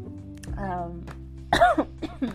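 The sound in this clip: Coughing and throat clearing from someone with a dry throat: a few short, rough bursts among voiced sounds, the strongest coming in a quick cluster near the middle.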